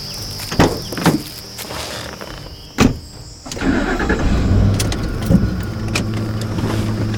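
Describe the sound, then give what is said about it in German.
A car, as someone gets in for a lift and drives off: a few sharp thumps like doors or steps, then the engine starts and runs in a steady low rumble to the end. “Könnten Sie mich vielleicht mitnehmen? Wohin wollen Sie denn? Dar es Salaam wäre klasse. Fahren Sie vielleicht dahin? Ja, da haben Sie Glück. Steigen Sie ein.”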